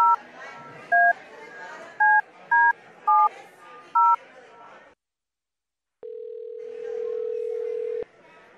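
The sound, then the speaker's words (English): Touch-tone keypad beeps dial a phone number, a handful of short bright tones at uneven intervals over a murmur of background voices. After a brief silence, a steady, sustained line tone follows. “We're gonna dial him up real quick.”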